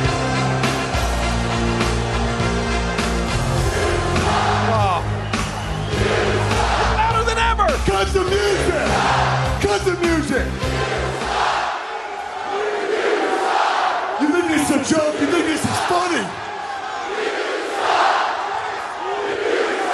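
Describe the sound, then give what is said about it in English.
Wrestling arena crowd chanting at Kurt Angle, a loud, sustained mass of voices shouting in rhythm, with a low droning tone underneath during the first half that drops away partway through. “Does he actually think that when he comes out here now, these people are not going to chant even louder? Maybe the point. Listen, they're not even waiting for the entrance music.”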